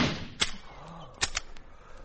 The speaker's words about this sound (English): Now, see that vine hanging from the tree over there? Yes, I see. Watch what an explosive bullet does to it.